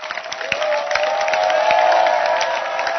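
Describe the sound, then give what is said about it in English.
A church audience claps for their pastor in a busy, sustained burst, with crowd voices and tonal sound running under the clapping. “Clap your hands for your pastor.”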